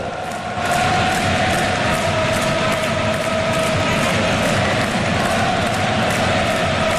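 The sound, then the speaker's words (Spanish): Dutch fans roar in a football stadium during a Netherlands–Japan match, a loud, continuous crowd wash that holds steady from start to finish. “Se me pone la piel de gallina escuchando al público en el estadio”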